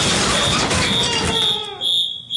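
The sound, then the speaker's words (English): A fire alarm sounds as a high, steady electronic tone through loud, harsh noise that dips briefly near the end. “The fire alarm!”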